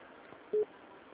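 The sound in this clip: A dropped telephone call on an automated business phone line produces a single short, steady mid-pitched disconnect beep. It rises briefly out of a faint line hiss and then cuts off.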